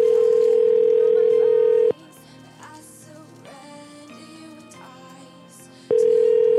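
Phone ringback tone during an unanswered call. Two long, steady, loud tones are separated by a few seconds of quieter, busier background sound.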